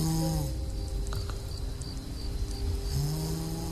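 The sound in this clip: A person snoring, with low buzzing snores at the start and again near the end over a steady faint hum.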